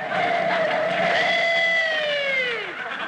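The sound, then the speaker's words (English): Tires squeal as a car takes a corner much too sharply, up on two wheels. The loud, sustained screech rings with bright tones that slide downward in pitch and fade at the end. “Well, we made it. On two wheels yet. Rochester, you took that corner much too sharp.”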